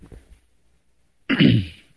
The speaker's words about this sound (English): See, just clear your throat real good, then you can keep right on.